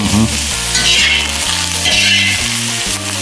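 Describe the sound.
Zucchini and eggplant frying in a pan and stirred with a spatula give a steady, dense sizzle that stays loud and even all the way through.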